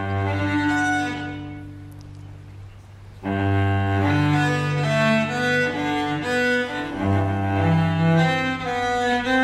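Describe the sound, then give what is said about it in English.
A cello plays a movement from a Cello Suite in rich, sustained bowed notes that move smoothly from one pitch to the next, quieter for the first few seconds and then fuller and louder. “rendition of Cello Suite. So let's just listen to this.”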